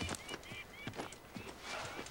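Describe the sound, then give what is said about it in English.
Horse sounds from a mare with her newborn foal in a woodland clearing: a few soft hoof clops and low snuffling, fairly quiet and irregular. “He slows to a cautious walk as he sees his mare in a clearing with a newborn foal at its feet.”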